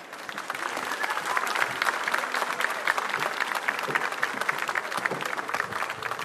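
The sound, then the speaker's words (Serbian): Audience applause for two actors after their stage performance, a dense, steady clapping of many hands that holds at an even, fairly loud level for several seconds without a break. “sada kada ste lepo ispratili aplauzom naše glumce Anu Simić i Milana Milosavljevića”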